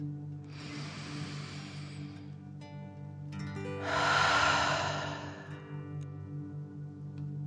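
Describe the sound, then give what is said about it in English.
A slow, deep breath drawn in through the nose and then let out during a calming relaxation exercise for children. Two soft, airy breaths, the second fuller and louder, sit over a faint sustained tone. “Breathing in through your nose and breathing fire out of your mouth. Again, deep breath in and out.”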